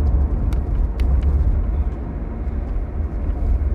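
Low, steady rumble of a car being driven to work, a droning road and engine hum that holds level throughout, with a few brief faint ticks above it and no talking.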